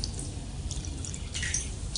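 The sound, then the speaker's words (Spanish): A thin trickle of water from a shower that is barely running: a faint, steady, hissing flow with light dripping and no talk. “Estoy todo enjabonado y apenas llega un hilo de agua.”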